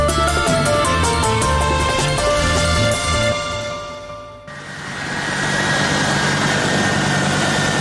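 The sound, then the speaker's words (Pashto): The engine of a US Air Force military aircraft at Kabul airport: a loud, sustained roar with whining tones, which thins for a moment and then swells into broad rushing noise. No talk. “دا د امریکا د هوایی ځواک د هغې پوځي الوتکې غږ دی چې تیر کال د زمري یا اسد میاشتې 15 ترې د کابل په هوایی ډګر کې لږ تر لږه درې کسان راولویدل او مړه شول.”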